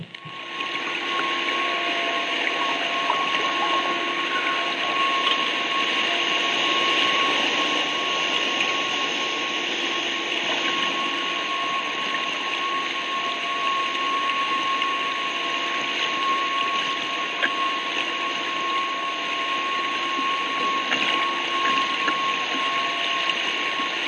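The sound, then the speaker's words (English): Submarine driving machinery whines steadily, a constant mechanical drone with a sustained tone above a broad rushing hiss, unchanging in level for about twenty-four seconds with no voices. “Now you'll hear the whine of the driving machinery.”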